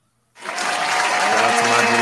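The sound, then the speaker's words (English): A round of applause for a birthday shout-out begins suddenly after a moment of silence, quickly swelling into loud, steady clapping that holds at full strength to the end. “can I get a round of applause for Miz?”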